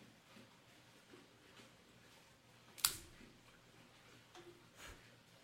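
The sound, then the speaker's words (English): A single sharp snap of a C-Car V-cutter cutting a Punch Diablo cigar, faint and quick, standing out from low hiss and a few soft handling sounds. “Let's go ahead and give it a cut using my C-Car V-Cutter.”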